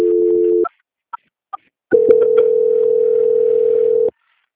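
Telephone call transfer tones on a line being passed to a bank's audit department: a short steady tone, a few sharp clicks, then a long continuous mid-pitched tone lasting about two seconds before it cuts off.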